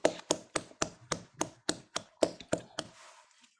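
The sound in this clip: Hand clapping to welcome a senior pastor at a church service, a run of sharp, evenly spaced claps that thins out into a few faint ones at the end.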